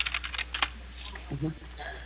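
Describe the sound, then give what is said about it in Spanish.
Keyboard typing of a WhatsApp message, a quick, faint run of key clicks followed by a brief voice and a few scattered taps. “En estos momentos le estoy escribiendo por WhatsApp para que tenga también mi número.”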